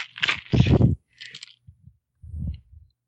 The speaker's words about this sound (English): Can I roll these 10 dice? You can roll these 10 dice.